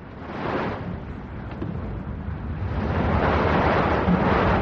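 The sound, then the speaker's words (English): Choppy sea waves and gusting wind make a steady, broad roar of surf and rushing air, swelling slightly louder toward the end, with no voices. “My God, that's some lump. You can hear the chop. That's the wind brew.”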